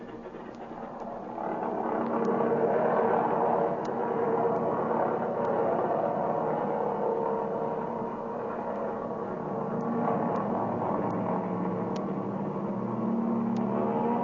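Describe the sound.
Airplane engine roar during takeoff from an airfield: a steady, loud drone that swells after the first two seconds and holds evenly, with faint ticking clicks scattered through it.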